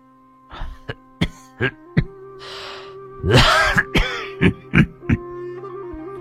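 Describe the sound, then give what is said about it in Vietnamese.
An old man coughs painfully in a rock cave, giving a long series of many short, harsh bursts, some bunched close together, over a steady low droning tone. “Lão Sâm ho khổ khổ.”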